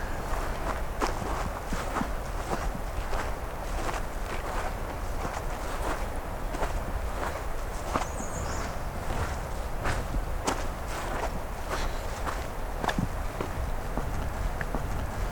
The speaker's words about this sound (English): So initially I'm walking in here today, so I can retrieve some recorders.